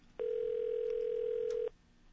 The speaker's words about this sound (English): All right, it's ringing. It's ringing.